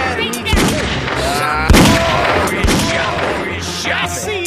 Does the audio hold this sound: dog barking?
no